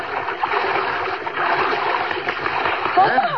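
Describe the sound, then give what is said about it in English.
Splashing water as a swimmer strokes out to a raft just offshore, a continuous churning splash and slosh at a fairly even level throughout, with a faint voice near the end. “go for an afternoon swim. Out to a raft just offshore. She's sitting there as you swim up.”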